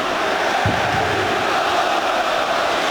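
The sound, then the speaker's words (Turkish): A stadium crowd roars for footballer Mohamed Salah as he steps up to take a corner kick in a football match, a loud, unbroken wall of crowd noise that holds level for the whole stretch. “Yakın tribünden alkışlar Muhammed Salah'a.”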